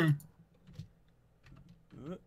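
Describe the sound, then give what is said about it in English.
Light clicking of typing on a computer keyboard, faint and sparse, with brief bits of talking at the start and end. “I just type Nate and it pulls up your full name.”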